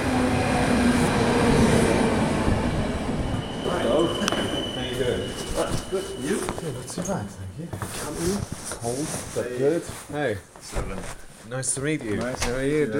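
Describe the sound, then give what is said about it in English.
A train arriving at Berlin main station: a loud, broad rumble and rattle fills the first seconds, then eases as people talk over a steady background hum. “So I'm going to get on the train that's just arriving.”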